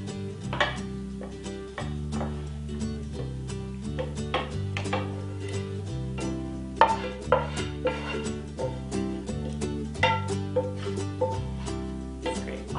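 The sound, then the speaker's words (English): Kitchen sounds as a filling with shallots and onions goes into a pan and is mixed around: a few faint clinks and scrapes of a utensil against the pan, over soft steady music. “Our filling is all combined and it's delicious. And we're going to add that into the pan.”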